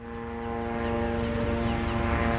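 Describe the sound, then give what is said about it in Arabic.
Military drones flying overhead across the Gaza Strip give a steady, continuous droning engine hum with strong, even tonal harmonics that hold level throughout, with no voices. “الطائرات المسيرة بكل أنواعها الآن تحلق في أجواء قطاع غزة بعمومها”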